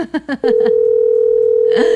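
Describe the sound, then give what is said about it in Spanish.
A steady single-pitch telephone ringback tone plays on a prize call while it waits for an answer. It holds unbroken for about a second and a half, with a voice speaking just before it and again as it continues. “Se está haciendo esperar don Alejo. La llamada ganadora.”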